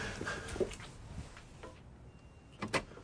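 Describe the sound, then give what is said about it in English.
A sticking door bolt being worked loose: faint metallic clicks and rattles with a sharper clunk near the end. “Hold on, it's the damn bolt. Just a moment more, don't go.”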